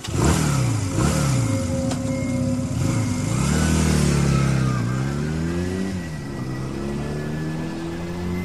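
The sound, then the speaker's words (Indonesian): A ride-hailing motorcycle taxi's engine revs and accelerates as the rider sets off. It runs loud and continuous throughout, its pitch climbing and dropping in several swells, with no talk. “Aku segera meraih motor dan berangkat.”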